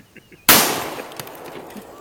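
A gunshot from a firearm cracks out as one sharp, loud blast, followed by a long, noisy tail that slowly decays.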